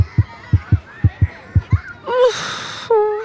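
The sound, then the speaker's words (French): A heartbeat pounds hard with fear in a children's story: seven deep, rapid thumps fall in uneven lub-dub pairs, followed by short, higher tonal sounds with a breathy edge. “Toudou a un peu peur. Il a le cœur qui bat fort.”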